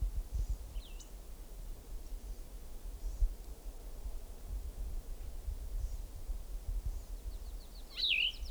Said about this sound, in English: another bird in distance